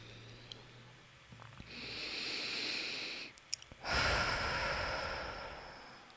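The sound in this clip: A deep breath drawn and released, heard as two long, airy rushes of breath, the second fuller and louder, with no talking.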